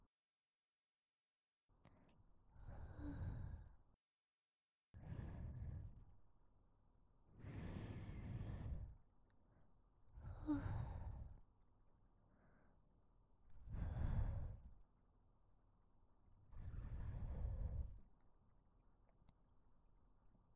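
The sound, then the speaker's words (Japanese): Gentle blowing into an ear: six soft, breathy puffs of air, each lasting a second or two, spaced evenly with quiet pauses between them. “耳、ふうふうするの忘れてないですよ。”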